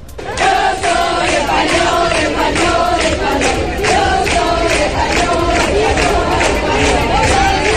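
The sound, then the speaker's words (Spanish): A large crowd chants loudly and rhythmically, waving Spanish and Melilla flags during the Spanish royal visit to Melilla, with steady repeated phrases that go on without a break. “los cánticos han sido constantes, como este que estás escuchando”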